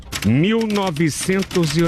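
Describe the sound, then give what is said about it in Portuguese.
Typing on a typewriter clatters in quick key strikes beneath a person speaking continuously. “Máquina de escrever e eu começo.”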